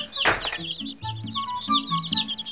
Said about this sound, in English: I see my little chicks taking a shine to you.